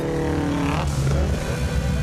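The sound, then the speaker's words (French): Car engines revving loudly, Subaru cars, a steady throaty roar that swells and surges through the whole two seconds, with harmonic whine rising over a deep rumble and no voices. “Faites rugir vos Subaru, les gars!”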